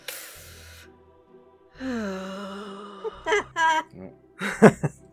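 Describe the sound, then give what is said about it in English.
A voice imitates a wincing sharp intake of breath: a short hissing gasp, then a drawn-out voiced groan and a few brief breathy bursts. “he winces as it strikes the floor and kind of sucks in a breath like...”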